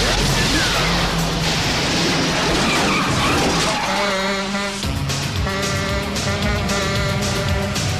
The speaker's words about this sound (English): The van drives straight at Axel, waiting behind the front gates.